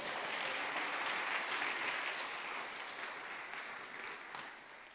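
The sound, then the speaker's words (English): A church audience claps their hands together: a full, steady burst of many hands at once, holding strong before gradually thinning and softening toward the end. “Clap your hands for this brother.”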